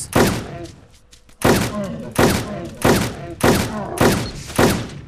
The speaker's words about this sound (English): Seven shots. Northwest.